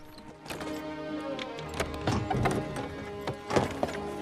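Hooves clip-clop as a horse-drawn carriage arrives at Devonshire House in London. Many irregular knocks and thuds sound over a steady rumble, with no talk.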